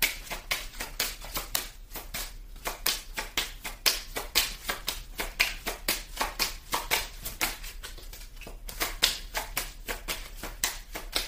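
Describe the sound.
Cards being shuffled for a Sagittarius card reading, producing many soft, crisp flicks and taps in a fairly steady stream, quiet and without talk.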